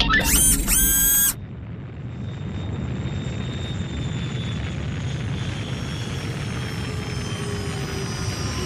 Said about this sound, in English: Oh no, this is going to be one rough landing! Oh god! Oh, that is a rough landing!